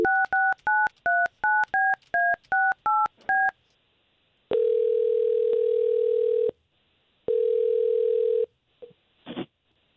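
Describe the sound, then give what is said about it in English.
Touch-tone beeps of a phone dialing an outgoing call come in a quick, evenly spaced run, then two long, steady ringing tones follow with a pause between them, and a brief click closes the sequence. “We're going to try to call her right now and see if we can talk to her a little bit, okay?”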